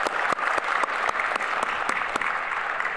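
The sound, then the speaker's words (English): An audience at a university panel discussion on the Mass and Vatican II claps to welcome a panel speaker. The applause is steady and dense, with a few sharper claps standing out, and no one talks. “So we welcome Dr. Susan Waldstein with us here tonight. Yes, let's give her a hand.”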